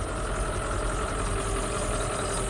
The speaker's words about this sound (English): It's 10 degrees out on Berry Pond, and three plows clear the track for the next race.